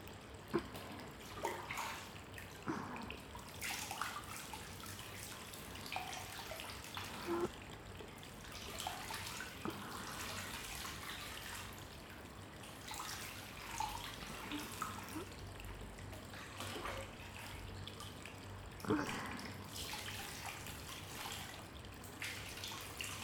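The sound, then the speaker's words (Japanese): Hot water is poured over someone at the end of a bath, a faint, steady splashing and trickling that runs on continuously, broken by a few slightly louder splashes. “最後にお湯かけますね。”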